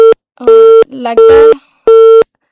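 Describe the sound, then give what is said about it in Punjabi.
Telephone busy tone after a caller's line disconnects: four evenly spaced steady beeps, with a voice briefly speaking in one of the gaps. “ਲੱਗਦਾ ਹੈ ਜੀ ਉਹਨਾਂ ਦੀ ਜਿਹੜੀ ਕਾਲ ਹੈ ਕਿਸੇ ਕਾਰਨ ਕਰਕੇ ਡਿਸਕਨੈਕਟ ਹੋ ਗਈ ਹੈ”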